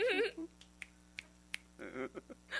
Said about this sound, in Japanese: なんか指パッチン、なんか左手の中指だけ上手です。